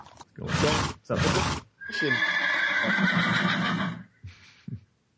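Horse sound effect: two loud, breathy bursts, then a long, loud whinny with a bright, steady tone, followed by a few faint hoof clops.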